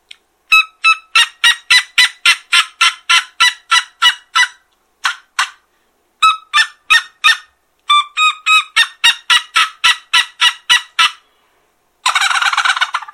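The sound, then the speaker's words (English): A turkey gobble imitated with a tube call gives a loud, rapid series of sharp, yelping notes in several bursts separated by short pauses, closing with a rougher, rattling burst. “And the gobble said, tooka-tooka-tooka. There you go. That's tube calling 101”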